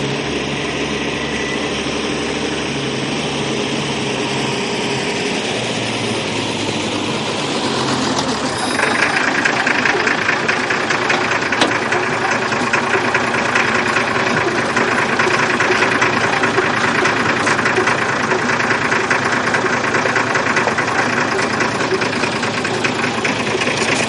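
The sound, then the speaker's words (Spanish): An old line bus engine idles at the entrance to a small village in the Castilian highlands, a steady mid-pitched rumble with a knocking edge; about a third of the way in it turns louder and brighter, then holds steady. “Un viejo autobús de línea para a la entrada de un pueblecito de la serranía castellana.”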